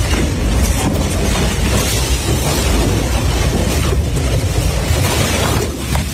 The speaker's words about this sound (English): Bro, there's a tornado outside right now.